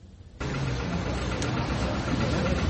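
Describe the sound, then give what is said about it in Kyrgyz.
An old 56-year-old tractor engine running on a slow road journey from Saxony to Saint Petersburg: after a brief quiet moment it starts abruptly into a loud, steady, low rumbling drone that holds evenly to the end. “Саксониядан Санкт-Петербургга трактор менен барган. Анысы да эски үлгүдөгү трактор экен.”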